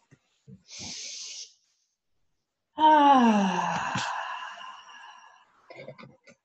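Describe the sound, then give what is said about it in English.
Breathing in a guided group meditation: a soft hissing inhale, then after a pause a long, voiced, sighing exhale that slowly fades, followed by a few faint breathy sounds. “Let us breathe together.”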